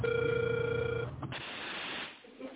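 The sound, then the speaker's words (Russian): Ringback tone on a phone line while a call is being placed: one steady, low tone lasting about a second that then stops, leaving a thin, hissy line noise. “Продолжаю дозвон.”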